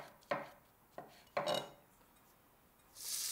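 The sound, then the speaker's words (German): A knife chops mushrooms on a cutting board with three quiet, irregularly spaced strokes, each a short crisp cut. A soft, steady hiss follows at the end. “Wir machen heute eine Pilzbutter. Wir schneiden die Pilze klein.”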